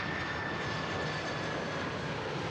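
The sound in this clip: Air Force One's engines roar steadily as the aircraft approaches Yuma airport, a dense, unbroken rush of noise with a thin, high whine running through it.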